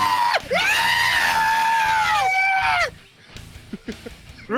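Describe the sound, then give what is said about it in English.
A human voice imitates a character's spazzing scream: a long, shrill, high-pitched shriek held for a couple of seconds, then breaking off into quieter scattered sounds. “can we please get your best Fred spaz noise, whatever.”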